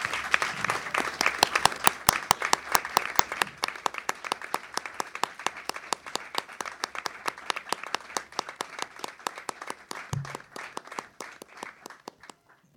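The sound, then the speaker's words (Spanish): Sustained audience applause at a website presentation event, with many individual claps in a brisk, slightly uneven rhythm, loudest at first and thinning gradually toward the end. “Si les pido un aplauso, por favor.”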